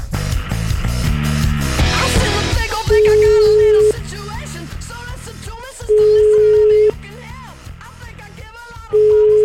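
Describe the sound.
An outgoing telephone call rings out as three steady ringing tones, each about a second long and roughly three seconds apart, sounding over loud background music.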